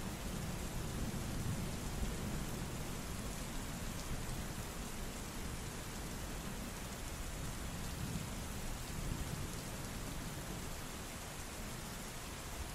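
Driving rain in a forest, a dense, steady hiss that stays even and unbroken throughout, soft and without voices.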